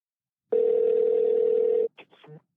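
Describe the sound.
A steady single-pitched telephone tone holds for just over a second as a call is placed, then cuts off into a few short, clipped fragments of sound.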